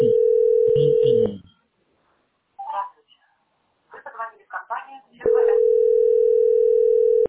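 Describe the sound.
A telephone tone sounds after a number is dialed and the line is busy: a steady, loud, low-pitched tone in two long stretches, with people talking in the gap between them.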